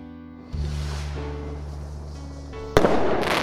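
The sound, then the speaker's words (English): A rocket launch effect: a deep, rumbling roar kicks in after half a second and holds over a steady musical tone, then a sharp, loud burst erupts near the end. “Just when the moon was losing hope, the people on Earth began to experiment with rockets.”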